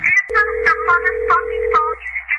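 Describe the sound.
A telephone ringback tone from an unanswered call to a talk radio line, heard as one steady, low, even tone of about one and a half seconds with voice-like sounds over it.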